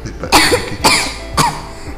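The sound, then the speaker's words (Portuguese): A girl coughing three times in quick succession, each a loud, sharp, breathy burst followed by a short rough tail, with no talking. “Papai, eu tô com tosse.”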